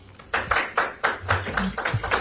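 Audience clapping comes as several separate, irregular bursts of claps rather than a continuous wash, each sharp and brief, at moderate loudness.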